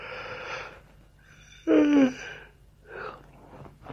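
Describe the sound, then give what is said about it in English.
A tired man yawns in the early morning hours: breathy air, then a loud, voiced, groaning stretch whose pitch falls, then softer breathing afterward. “by the way, I'm genuinely yawning.”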